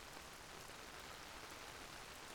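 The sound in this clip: Rain falling as a steady, even hiss with no breaks, very faint and with no voices.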